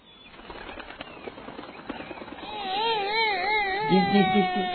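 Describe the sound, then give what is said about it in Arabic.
A little bird in a children's story cries with a wavering, sobbing tone that swells after a stretch of soft rustling and clicking. “مرحبا يا عصفور يا صديقي، لماذا أنت تبكي؟”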